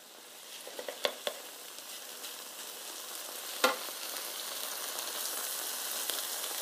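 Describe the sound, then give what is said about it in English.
Eggs for fried rice sizzle in a pan after being flipped, a broad steady frying hiss that grows slightly louder over time, with a few sharp crackles near the start and one louder pop midway. “I've just flipped them in the pan. They are just about done.”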